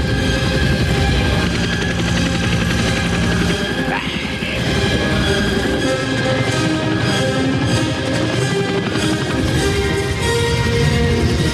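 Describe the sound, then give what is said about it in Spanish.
Military helicopters fitted with loudspeakers and machine guns make a loud, throbbing rotor beat inside a dense, busy mix of sound that stays intense throughout. “De los costados de los helicópteros asoman los grandes altavoces y las ametralladoras.”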